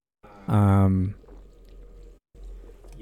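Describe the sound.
Fizzy, gushing pour of Liquid Death sparkling canned water, a steady hissing rush lasting about a second that stops briefly and then resumes.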